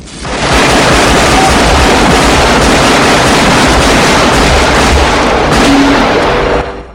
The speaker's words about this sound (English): Van Cleef lobs a grenade through the office window as Chance leaps out through it. The massive explosion sends Chance sliding beneath a table. He fires at Van Cleef from point blank on the floor.